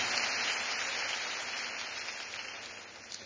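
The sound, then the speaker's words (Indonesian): Audience applause at a live music show, a dense, steady wash of many hands clapping that continues throughout and fades slightly toward the end. “Berikan tepukan untuk mereka, rakan media saya di sini.”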